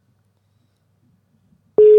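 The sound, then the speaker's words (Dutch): Ringing tone of an outgoing telephone call: after near silence, a single steady, loud tone starts abruptly just before the end and holds at one pitch. “En we bellen even met Martijn Martijn van de Vlist”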